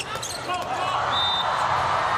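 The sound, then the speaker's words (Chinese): A volleyball serve struck during a match, a sharp ball impact heard beneath a commentator's voice. “冯世坤的发球，”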